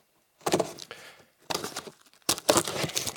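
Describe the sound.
A taped cardboard delivery box is cut open with a knife, giving three bursts of scraping and tearing with short pauses between them.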